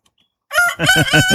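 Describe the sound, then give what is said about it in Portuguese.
A rooster crows once, loud and brief, breaking in after a short silence with a strained, wavering call of rapid pulsing notes. “tá batizado então o galo aqui do Balança Brasil agora”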